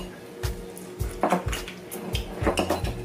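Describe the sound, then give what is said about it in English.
Dishes and cutlery clink as lobster and egg are served onto plates, with many quick taps, scrapes and clatters of metal on plate coming in uneven bursts. “So I'm gonna get a little lobster, get a little egg for y'all. Let's see. Bon appetit.”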